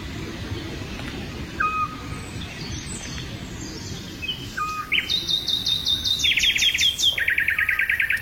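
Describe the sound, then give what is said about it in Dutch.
European scops owl calling in southern France near Cardet: two soft, short whistled notes spaced well apart over steady background hiss, followed by other birds chirping and trilling higher in the later part; no voices. “En hoort ter hoogte van Cardet in Zuid-Frankrijk het hypnotiserende geluid van de dwergooruil.”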